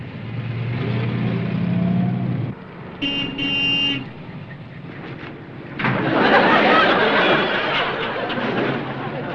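A car engine runs steadily, a short horn toot sounds partway through, and then the engine revs up louder and stays loud to the end.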